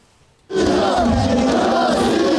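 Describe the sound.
Football fans in a Moscow fan zone cheer a Russian national team win over the Czech Republic. The crowd's roar bursts in abruptly and holds loud and steady.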